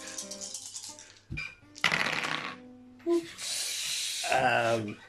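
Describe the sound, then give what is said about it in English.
A pool of many dice is rolled during a tabletop role-playing game, with several bursts of clattering, rattling plastic over about five seconds and a sharp click midway. “And the D8 to that pool of many dice you're about to roll.”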